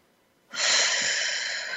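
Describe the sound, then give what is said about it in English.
A deep breath drawn in through the nose, a steady breathy hiss of air that starts abruptly and holds for over a second, heard alone. “let's take a breath in through the nose, all the way to your toes,”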